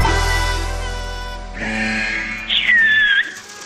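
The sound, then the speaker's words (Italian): Clear human whistling from a company chief executive at a chicken factory, heard when he is phoned: a short, bright, high whistled phrase near the end, lasting under a second, over a steady tonal background. “Possibile che ogni volta le telefoniamo sta fischiando”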